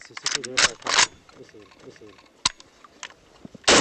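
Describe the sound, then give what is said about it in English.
Sharp mechanical clacks and a few abrupt bangs as a Kalashnikov rifle is cocked and fired, heard alongside a man talking. “One fighter cocks and fires a Kalashnikov rifle.”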